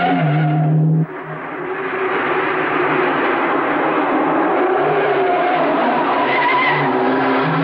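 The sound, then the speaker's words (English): Cars speed along a narrow cobblestone road winding uphill through a cemetery: a loud, continuous engine roar with rough tire noise that drops briefly near the start, then builds and holds steady. “The two cars weave along the narrow cobblestone road that winds its way uphill through the cemetery.”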